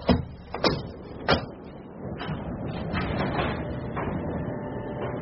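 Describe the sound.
Heavy mechanical clunks and grinding as desert dunes open to reveal a steel underground lair. Three sharp knocks come first, then a sustained low rumbling slide.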